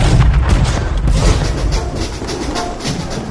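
Gunfire volley sound effect from a radio drama: a loud, dense burst of shots that blurs into one continuous rumble throughout, with no clear gaps between shots.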